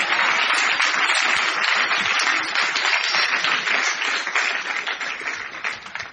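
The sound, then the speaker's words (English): A church audience applauds for Jesus during a sermon: steady, dense clapping from many hands that holds even for several seconds, then loosens and thins slightly toward the end. “I thought you would clap for Jesus or something.”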